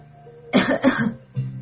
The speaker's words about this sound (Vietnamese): đưa tay lên hực, lên ngực, ho khe khẽ.